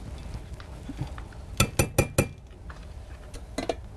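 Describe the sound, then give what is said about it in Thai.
Utensil clinking against dishware while green gel mixture is scooped out into a cup, a quick run of four sharp clinks, then a couple more after a pause. “รบกวนอาจารย ์ เอาถ้วยมาหน่อยค่ะเดี๋ยวเราจะตักเนื้อออกเลย”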